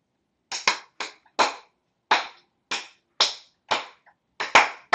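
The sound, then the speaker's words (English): Hands clap sharply many times in an uneven rhythm, some claps landing in quick pairs, with crisp, bright slaps separated by silence. “Sometimes if you're saying to your child, like, clap with me, clap at the same time I clap. And you're going like,”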